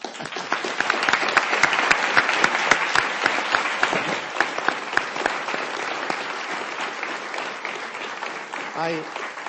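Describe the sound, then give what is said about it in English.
An audience at the close of a talk claps in a dense, sustained round of applause. The clapping stays strong for about nine seconds and eases only slightly toward the end. “So in that vein, let's give everyone a hand.”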